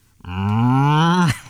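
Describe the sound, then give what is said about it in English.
A person imitates a cow's moo with one sustained, throaty low call that climbs slightly in pitch as it holds, then drops off sharply at the end. “Why can't I do a cow impression? Why? It's not hard.”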